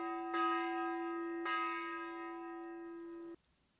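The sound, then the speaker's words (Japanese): A peace bell struck twice, each strike a clear, deep ringing tone that sustains and slowly fades before stopping abruptly, alone and quiet. “平和の鐘”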